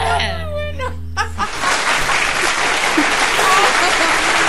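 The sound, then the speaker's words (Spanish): Audience applause at a live show, breaking out loud and dense as the preceding music cuts off, then continuing as a steady, even roar of clapping to the end. “¡Un aplauso!”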